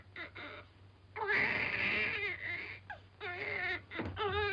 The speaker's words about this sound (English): It isn't, Mother. He's just hungry. I'm sorry, my dear. It's a touch of the colic. He's been crying for 5 minutes.